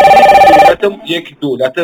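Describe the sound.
A telephone rings in a radio studio with a single steady electronic trill lasting under a second. A voice then starts talking.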